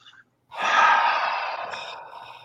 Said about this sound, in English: So you take a couple minutes, take a deep breath or two,